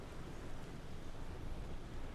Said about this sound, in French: le ressac des vagues